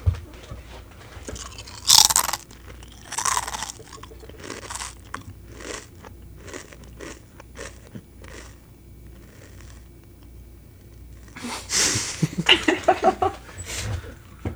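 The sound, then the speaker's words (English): Crinkling of a bag, made on purpose for ASMR: a few bursts of crisp, crackly rustling separated by quiet gaps, with a longer, busier run of crinkles near the end. “Michael, can I add some ASMR into this? Yeah, no problem. Yeah, go for it. A little bit of crinkling, bag crinkling.”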